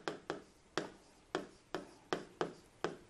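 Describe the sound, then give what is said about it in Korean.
Handwriting with quick, scratchy strokes: eight short, faint scraping bursts in an uneven rhythm, with no talk. “네, 이 위에다, 옆에다 써볼게요.”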